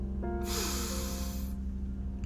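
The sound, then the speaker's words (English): One deep breath in, a breathy rush of air lasting about a second, heard over a soft, steady music bed. “Take a deep inhale.”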